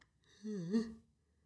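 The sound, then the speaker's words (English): A tired person's yawn: a short, drawn-out voiced groan with a low, wavering pitch that dips and rises before fading out, faint and alone. “Excuse me, guys. I yawned.”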